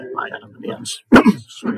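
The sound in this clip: A person clears their throat with one short, rough, gravelly burst, with talking just before and after it.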